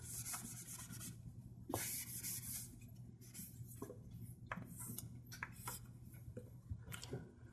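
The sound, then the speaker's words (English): Scratchy rubbing strokes of writing on a board during a physics lecture, coming in several short bursts of varying length over a steady low hum, with no talk. “let me just write this here.”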